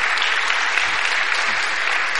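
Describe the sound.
Audience applause welcoming a pastor onto the stage at a church service: dense, steady clapping that holds at an even level throughout, with no voices over it.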